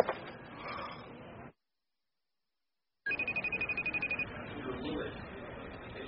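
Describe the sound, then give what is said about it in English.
Trilling ringtone of an unanswered phone call: a rapid, pulsed, mid-high tone lasting about a second. It comes after a silent gap and sits over steady background noise. “She's not answering, Phil. Are you calling Andy? It's going straight to voicemail.”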